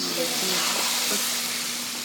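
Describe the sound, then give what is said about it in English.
Marinated, thinly sliced beef sizzles in a frying pan, giving a steady, even hiss of frying that holds at the same level throughout. “Finally, she puts the marinated beef into the frying pan.”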